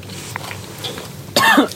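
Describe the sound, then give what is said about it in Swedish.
A person coughs after swallowing snus liquid: one short, harsh burst at the very end, preceded by a near-quiet stretch. “fast nu hostar du väldigt mycket”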